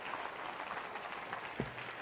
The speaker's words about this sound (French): Applaudissez le Seigneur avec moi.